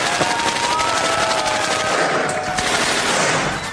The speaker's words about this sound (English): Here's a machine gun, by the way. Shall I start it?